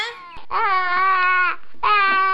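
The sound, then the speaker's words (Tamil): A baby cries: a short whimper, then two drawn-out, high wailing cries with a brief pause between them. “பொண்ணு, குழந்தை அழுவுது, போய் என்னன்னு பாரு”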